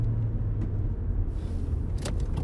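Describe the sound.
A car driving along a dirt road at night gives a continuous low engine rumble with steady road noise, broken by a few brief, higher crackles near the end.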